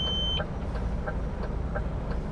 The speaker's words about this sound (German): Wenn er nach rechts blinkt und sich jemand dem LKW nähert, ertönt ein piependes Warnsignal.